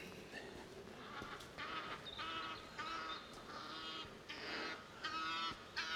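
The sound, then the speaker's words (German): Geese honk while flying in formation, giving a quiet series of nasal, harmonic calls in short irregular bursts over faint background noise. “Angriff der Kampfgänse. Die fliegen hier in Formation.”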